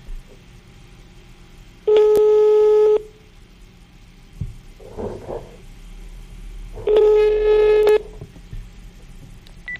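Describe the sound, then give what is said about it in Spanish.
Ringback tone of a telephone call going unanswered: two long, steady buzzing rings about five seconds apart, with a faint rustle in the quiet gap between them. “No contestó. Le vamos a marcar a otro.”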